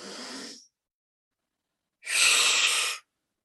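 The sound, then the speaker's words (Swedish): Deep, forceful breaths, in through the nose and out through the mouth, during a guided relaxation: a short breath, a silent pause, then a longer, louder, breathy exhalation. “Så vi börjar ta 3 djupa andetag in genom näsan och ut genom munnen. Ganska kraftfulla.”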